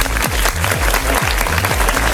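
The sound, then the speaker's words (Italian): A studio audience claps in a dense, loud burst of applause that continues evenly for the whole stretch, with a rhythmic beat of music pulsing underneath. “Facciamo un applauso a DJ Tiga.”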